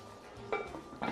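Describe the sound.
A metal lid set onto a cooking pot over a fire makes two short metallic knocks about half a second apart, heard alone and moderately loud.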